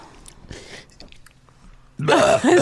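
Throat clearing with phlegm in the throat: faint scrapes and rasps lead into a loud, harsh, voiced clearing burst at the end.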